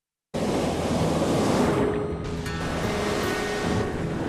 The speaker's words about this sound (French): Tout ce que la mer a à offrir, ce sont ces grosses bourrasques.